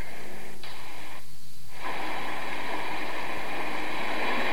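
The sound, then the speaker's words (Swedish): A mine passenger elevator descends at 5 meters per second with a loud, steady, rushing mechanical roar and a brief dip partway through, with no voices. “Då ska vi ta personhissen som kommer 5 meter i sekunden och åka ner.”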